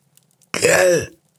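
A man clears his throat once with a single rough, voiced rasp lasting about half a second, loud and alone against silence.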